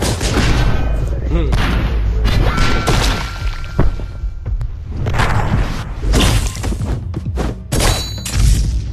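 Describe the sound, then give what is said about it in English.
Dense, loud combat noise from a 2D action video game in which time slows and bullets are sliced in midair: crashing, booming hits and clashing impacts with some ringing tones, continuous throughout with brief dips. “you have some cool time manipulation powers that let you slow down time and slice bullets in midair, to wit.”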